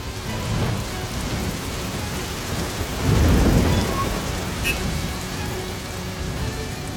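Steady heavy rain hisses over a rainy crossroads with flashing traffic lights, while a low thunder rumble swells in the middle and then recedes back into the constant downpour.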